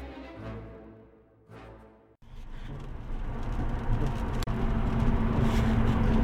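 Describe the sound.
Steady road and engine rumble of a car driving on a two-lane highway. It starts abruptly after a softer tonal passage and grows slightly louder, with a faint low hum running throughout.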